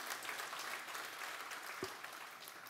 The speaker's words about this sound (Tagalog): Can we give a clap of praise right now?